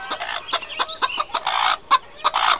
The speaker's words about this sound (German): Und da sehen wir auch schon die Hühner. Zwei laufen draußen herum.